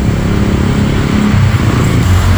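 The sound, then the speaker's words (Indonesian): Engines rumble and idle steadily as a queue of motorcycles and cars waits for fuel at a petrol station during a holiday rush, a dense, continuous low traffic drone with no distinct events standing out. “saat ini bagaimana antrian panjang yang sedang mengantri untuk pengisian BBM baik roda 2 dan roda 4 di SPBU Kuta Belang.”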